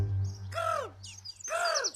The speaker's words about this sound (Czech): To je přece orel. Orel skalní, veličenstvo ptactva.